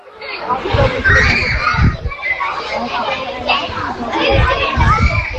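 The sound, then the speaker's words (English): Children play in a primary school playground in an Irish seaside town, their lively shouts, chatter and cries overlapping in a loud, busy mix that carries on throughout. “That sound you can hear is children laughing and playing in the playground at St Patrick's National School.”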